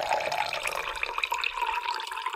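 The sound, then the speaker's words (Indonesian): Hot water poured into a glass that already holds sugar during a simple classroom experiment. A steady, continuous splashing pour runs for about two and a half seconds, with no talk. “Sekarang Ani, kamu tuangkan air panas itu. Coba. Baik, Bu. Dituang.”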